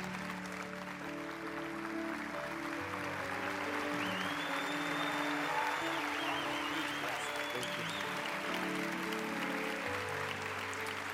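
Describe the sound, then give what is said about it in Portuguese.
A church audience applauds during a service, with dense, sustained clapping that stays steady and fairly even for the whole stretch. “Vamos dar uma salva de palmas para o Nick.”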